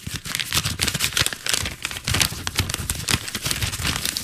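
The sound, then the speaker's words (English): An envelope is opened at the award announcement of a chamber music competition, giving many quick, crackly paper rustles and crinkles that run continuously at moderate loudness. “The envelope, please.”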